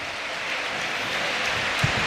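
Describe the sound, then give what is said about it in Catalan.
Rain falls steadily on an outdoor football stadium during a match, a continuous soft, even hiss with a couple of faint low thumps near the end. “I continua plovent. No ho fa amb aquella intensitat al principi del partit, però continua caient aigua aquí al Ciutat de”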